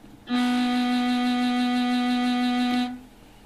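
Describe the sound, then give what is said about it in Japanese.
A loud, steady C note test tone played at 60 decibels, one sustained pitch with rich harmonics, starting and stopping cleanly after about two and a half seconds. “ただいまの音が60デシベルということで、先ほどよりもだいぶ音が大きくなっていることがお分かりだと思います。”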